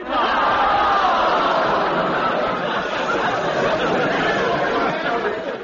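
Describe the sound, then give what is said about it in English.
Crowd noise from an audience at Buffalo Bill's Wild West Show, a dense, steady roar of many voices with shouts and bits of laughter running throughout. “I reckon I can hear the sound of an audience being entertained by Buffalo Bill's Wild West Show.”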